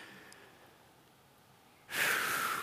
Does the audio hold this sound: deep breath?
yes